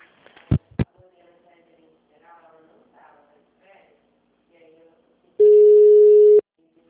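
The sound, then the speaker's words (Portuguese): A telephone tone as a call is being transferred: one steady mid-pitched beep about a second long, coming after a couple of sharp clicks and faint voices on the line. “Eu vou transferir sua ligação, tá bom?”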